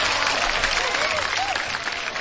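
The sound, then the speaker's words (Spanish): Applause from a crowd, a dense, even patter of many hands clapping that holds at a steady level for the full couple of seconds. “Un aplauso para toda la gente de Zacualco de Torres.”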